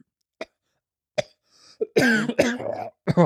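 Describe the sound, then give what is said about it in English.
A person imitates nervous throat clearing, as if trying not to draw attention in a waiting room: two brief, quiet clears, then a longer, louder rasping vocal burst and a final short one. “you feel so nervous you don't want to clear your throat. Are you there like going,”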